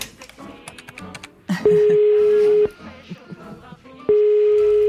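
A telephone being dialed to place a call: a scatter of short clicks and taps is followed by a steady, clear tone lasting about a second. After a pause the same tone returns and holds.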